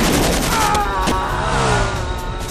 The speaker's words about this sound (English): Good shot! Not too hard with a sawed-off.